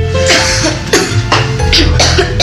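Children coughing: several loud, harsh bursts in quick succession, with no talk between them.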